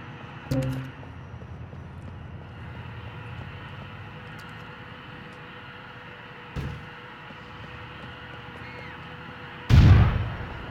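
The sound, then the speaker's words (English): Grenade explosion in the video game GTA IV: a loud, booming burst near the end, preceded by two smaller thumps over a low, steady background rumble. “You throw a grenade out there? Mm-hmm. Nice smoke for that.”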